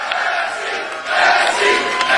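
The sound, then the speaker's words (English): A crowd cheering and shouting at an election event after the candidate's loss, a roaring mass of voices that swells louder about halfway through and stays high. “They're cheering.”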